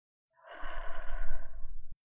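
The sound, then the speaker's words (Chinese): A deep, audible breath drawn in through the nose: one long, steady inhale lasting about a second and a half, breathy and full, with nothing else alongside it. “你甚至可以大声的深呼吸，大概身边的人都可以听到的那种程度。从鼻子吸气进来，”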